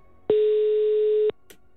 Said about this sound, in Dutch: Oh, dan moeten we even terugbellen natuurlijk.